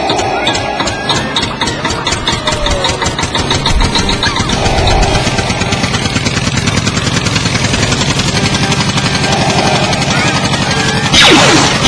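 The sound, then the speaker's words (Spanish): A car engine is cranked and run while someone tries to start the car, producing a continuous rough, rumbling engine drone with a steady pulsing rhythm throughout and a brief brighter burst near the end. “¡Pinche carro de mierda! ¡Arranca, güey! ¡Arranca!”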